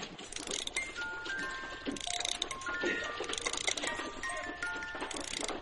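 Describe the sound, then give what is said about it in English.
A music box plays tinkling metallic notes in a continuous, fairly faint melody over a dense background hiss. “The little kid in there just started that music box. Ain't it as pretty as anything you ever heard?”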